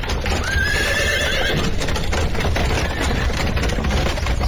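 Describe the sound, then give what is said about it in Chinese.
A horse-drawn carriage hurriedly pulls up outside a police station gate in a city's French Concession. A horse whinnies shrilly near the start over steady clip-clop hooves and a constant low rumble. “马车在法租界工部巡捕房门口仓促停了下来”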